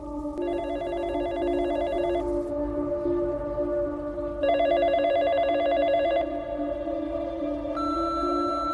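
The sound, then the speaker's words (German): A telephone rings during a played phone call: two long electronic ring bursts separated by a pause, over a steady droning tone, with no voices. “Und jetzt spiele ich euch einmal kurz einen Anruf ein, der abgesetzt wurde von einer Freundin.”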